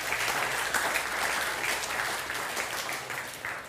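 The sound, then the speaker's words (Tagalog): Applause from a church audience during a Christmas-season worship service: dense, steady clapping that holds evenly for several seconds and then eases off slightly near the end. “Come on, palakpakan mo yung Panginoon.”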